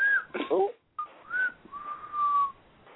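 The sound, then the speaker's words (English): A person whistles a short tune of a few clear notes. There is a brief break, then a rising note and a long sustained tone near the end. “my motherfucking lips is not that strong to whistle like that”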